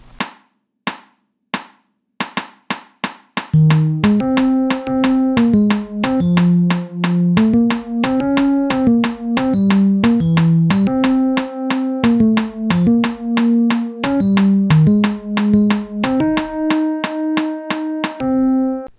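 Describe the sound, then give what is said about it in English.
Metronome clicks set to offset sixteenth notes, landing on the 'e' and 'a' of each beat: many sharp, rapid ticks in a regular pattern, first alone, then joined by a steady pitched melodic line that continues under the clicking. “And set the click to offset 16ths. In other words, the click is now on the E and the of each beat. And it sounds like this.”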